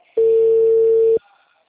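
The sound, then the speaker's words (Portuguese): A telephone ringback tone during an outgoing call: one steady, mid-pitched tone lasting about a second that starts and stops abruptly, then quiet. “Estou ligando, tá chamando?”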